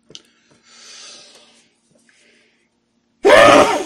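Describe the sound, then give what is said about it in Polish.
A man sneezes once, loudly and sharply, near the end after a few faint breathy intake sounds and quiet stretches. “Przepraszam. Rozkichałem się.”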